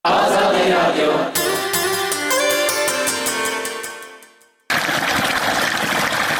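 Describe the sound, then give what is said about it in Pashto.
Water flows in streams and canals in Afghanistan with a loud, steady rush at the start and again at the end. Between them is a stretch of sustained musical tones that slowly fade out. “په ویالو او نهرونو کې د روانو اوبو غاک”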